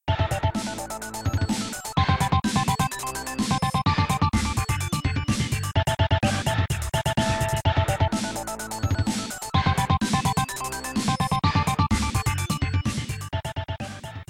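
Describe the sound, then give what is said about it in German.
A short looping video game character-selection tune, dense and energetic with a driving beat and a repeating melodic pattern, broken by brief pauses before the loop restarts. “ist ein kurzer Loop, der ganz am Anfang kommt, wenn du deinen Charakter auswählst. Das klingt so.”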